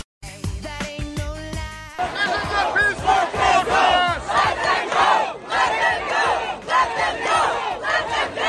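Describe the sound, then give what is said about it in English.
Protesters at UT Austin chanting in favor of Palestine: a large crowd of voices shouts in a loud, rhythmic, sustained chant that rises and falls in steady waves. “Those were protesters you just heard at UT Austin protesting in favor of Palestine, what's happening across the country at campuses”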